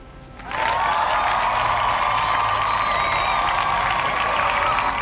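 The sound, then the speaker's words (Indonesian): Studio applause with some cheering begins abruptly after a brief quiet moment, then swells into a full, sustained roar of clapping that stays loud and steady to the end, with a thin high tone running through it. “Kita kasih tepuk tangan nih.”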